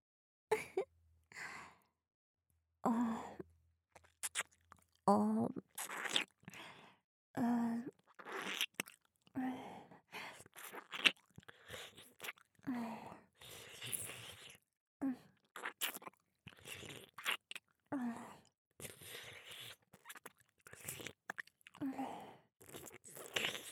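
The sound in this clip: ASMR mouth sounds of biting and eating ears: many soft, wet chewing, crunching and nibbling bites in an irregular rhythm, mixed with breathy sighs and close, quiet exhales.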